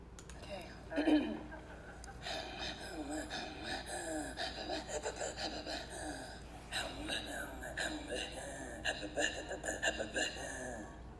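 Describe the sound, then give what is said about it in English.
Inuit throat singing performed at the Circumpolar Music and Dance Festival in Alaska: continuous, rhythmic pulsing of breathy, voiced throat sounds with quick repeated patterns and a steady loudness throughout. “At the Circumpolar Music and Dance Festival this past year, held in Alaska, they performed and shared their knowledge of throat singing. I will now play a clip of them at this event.”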